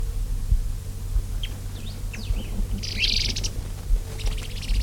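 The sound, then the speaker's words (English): Three birds call back and forth, giving scattered short chirps and whistles and then bursts of rapid high trills over a steady low rumble. “Three birds still interacting.”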